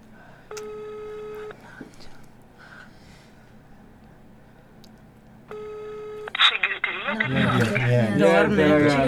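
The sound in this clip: Telephone ringback tone while a call waits for an answer: two separate ring bursts with a long quiet gap between them, each a steady buzzing electronic tone, followed by a louder stretch of voices.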